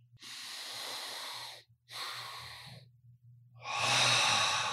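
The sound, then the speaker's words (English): Physiological sigh breathing: two airy inhales in quick succession, the second one shorter, then a longer and louder breathy exhale. It is heard alone with no talk. “So the physiological sigh is a double inhale, exactly like we just did. So you're taking one big hit in, but then you're capping it with another big hit.”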